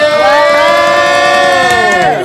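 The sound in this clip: Studio audience cheering for an in-studio guest, a loud sustained chorus of whooping voices that holds steady throughout.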